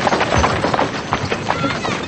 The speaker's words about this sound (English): Benjamin and the children ride onto Charlotte's plantation, and a slave approaches their wagon. It's Mr. Martin! He drives on past, and the slave follows. Gabriel's riding a horse alongside the wagon.